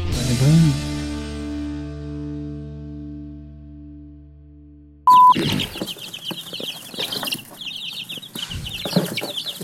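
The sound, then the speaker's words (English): Baby chicks cheeping, many rapid high-pitched peeps crowding together, entering abruptly after a long sustained buzzy electronic tone fades out. “Hey, we got baby chicks as a guest host today.”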